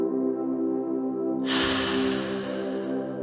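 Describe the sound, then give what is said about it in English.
A long, deep breath taken during a guided breathing exercise: a soft, airy rush begins partway through and continues to the end, heard over a steady, sustained musical drone. “A nice deep inhale. Hold it at the top. And exhale. Another inhale.”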